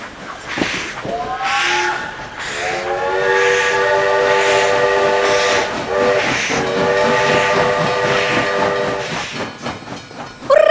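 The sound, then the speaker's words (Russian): A steam locomotive pulls train wagons along rails, its whistle sounding a few long, sustained blasts over a hissing, rumbling bed of motion that continues between and after them. “колеса тоже приходят в движение, начинают вращаться, и паровоз начинает ехать по рельсам и вести за собой вагоны поезда.”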